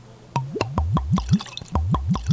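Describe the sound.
Dark beer glugging from a bottle into a glass: a quick, rhythmic run of liquid gulps, each with a short rising pitch, with a brief break partway through.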